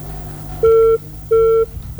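A phone call's disconnected tone sounds as a steady mid-pitched beep repeating in an even rhythm: two full pulses separated by short gaps, then the start of a third, over a faint low hum.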